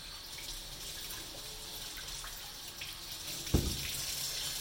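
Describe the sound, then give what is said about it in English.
Water running from a tap as carrots are washed, a faint steady hiss throughout with one brief knock or splash near the end and no talk. “Carrots, wash the carrots.”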